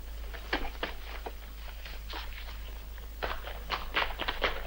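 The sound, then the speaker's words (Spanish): Running footsteps along a street and up onto a roof: many quick, irregular, light taps and scuffs, fairly faint, continuing steadily with no voices. “Mientras Luis y Doc corren calle adelante, el mayor sube tejado arriba.”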